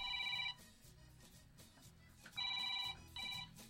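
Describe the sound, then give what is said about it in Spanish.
A telephone rings for a call to a house, sounding in a few bright, warbling electronic bursts separated by gaps, with a low murmur underneath. “Ahora está llamando. Ahora está llamando a su casa.”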